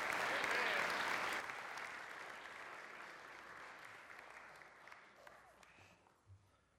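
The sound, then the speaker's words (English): An audience at a church service applauds, clapping strongly at first, then thinning out and fading over several seconds. “Let's give him a big hand.”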